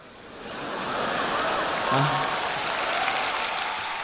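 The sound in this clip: Clapping from a group in a Cantonese spoken story, swelling in over the first second and then holding as a steady, moderate wash of many hands until the end.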